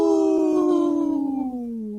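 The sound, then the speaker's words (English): A person imitating a wolf howl: one long, loud, sustained voiced tone that slides gradually lower in pitch from start to finish, heard alone. “That was a good howl.”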